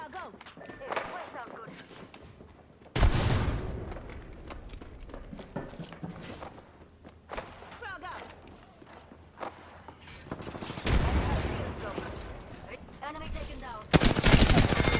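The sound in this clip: Video game gunfire crackles in repeated bursts of rapid automatic shots, loud and sharp, with quieter stretches between them. A voice talks during the lulls, and the firing grows denser and louder toward the end.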